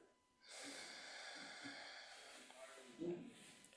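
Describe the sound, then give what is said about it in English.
Slow breathing exercise with a four-count inhale, two-count hold and four-count exhale: one long, steady airy breath of about two seconds, then a quieter stretch ending in a brief, soft puff of air. “So we'll do a four count in, we'll hold for two, and then we'll do a four count out. So four count in now. And then we'll exhale.”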